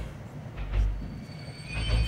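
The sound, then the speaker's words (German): A train slowing and stopping, thin high-pitched brake squeals drawn out over a low rumble of wheels and carriages that swells twice and settles between. “Na nun, was ist denn jetzt? Der Zug bleibt stehen.”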